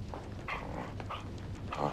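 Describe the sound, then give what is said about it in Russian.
A dog barking excitedly as it jumps up on its hind legs, giving a few faint, short yaps and whiny yelps spread over the moment. “Джерри Ли лает, подпрыгивает, вставая на задние лапы”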